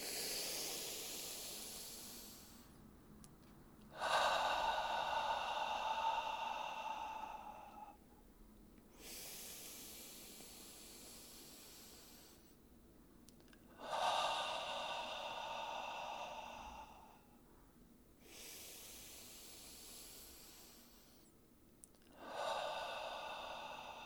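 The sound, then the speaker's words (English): Three slow, deep breaths, drawn in through the nose and let out through the mouth. Each is a soft hiss followed by a louder, longer breathy exhale, in an even rhythm with no talking. “Three breaths in from the nose and out through the mouth.”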